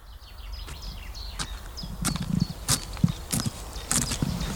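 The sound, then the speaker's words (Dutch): Footsteps of someone in boots walking on a country path in farmland, a loose, irregular run of soft crunching steps that grow slightly louder toward the end. “Ik heb mijn sneakers even ingewisseld eh, voor lazen. Ik loop nu echt op het platteland in Raalte.”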